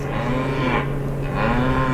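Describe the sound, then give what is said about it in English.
Cattle lowing in distress during a shifting wind under a darkening sky: loud, drawn-out bovine moos with a steady low hum, two long calls swelling and fading in succession, no talk over them. “Cows start howling in distress.”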